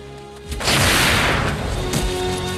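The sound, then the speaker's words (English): Gunshot during a running fight between frontiersmen and Huron warriors: a heavy blast bursts in and lingers as a rough roar, then a second sharp shot cracks near the end. “Chingachgook shoots one as he's running, then smacks another in the neck with his gun.”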